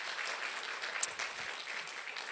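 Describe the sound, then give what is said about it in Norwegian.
Audience applause in a hall welcoming guests at a church gathering: a soft, steady patter of many clapping hands that continues evenly throughout, without talk. “I dag så har vi med oss noen gjester i, i salen her. Eh, Anders og Åsa fra Uppsala. De er her. Bare vink og ja, gi dem en eh, sånn varm velkomst.”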